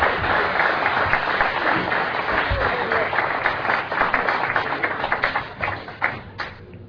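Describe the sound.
Audience applause welcoming a Dublin piper to the stage: a dense, loud burst of clapping that holds steady for several seconds, then thins into scattered separate claps before dying away.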